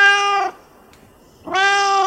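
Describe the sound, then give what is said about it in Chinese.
Two loud, clear meows from a white, odd-eyed Chinese rural cat with one blue and one yellow eye, born around 2015. The tonal calls hold a steady pitch and are separated by about a second of quiet. “小冕是一只15年左右出生的中华田园猫，它是白色的，然后它的眼睛是一瞳，一只蓝色，一只黄色。小冕跟大家打个招呼。”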